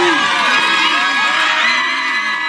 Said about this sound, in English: That's the sound of a $1.75 million cheer coming just moments after court was adjourned.